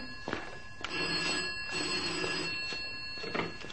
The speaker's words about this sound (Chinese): 电话啊，去听啦。